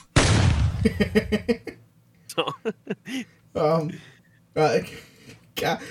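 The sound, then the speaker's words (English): Gunfire sound effect played for shooting down a magical flying goat: a sudden loud blast of gunshots that trails off into rapid, fading pops, followed by talking. “ASDF movie, it's a magical goat flying through the sky. Shoot it down. Yeah, shoot it down. I'm sorry. No. Hold on, I got a sound effect for that.”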